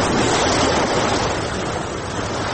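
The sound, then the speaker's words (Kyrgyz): Waves wash steadily onto the shore of a municipal lake beach at Cholpon-Ata on Issyk-Kul, a loud, continuous rushing surf noise with no break. “Бул Чолпонта шаардык муниципалдык пляждардан бири, 1.5 гектарга жакын көл жээген”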